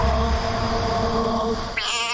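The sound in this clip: A cat meows once near the end, a short, high, wavering call over a steady bed of background noise.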